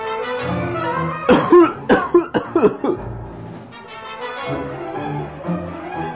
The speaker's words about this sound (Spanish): Tosió.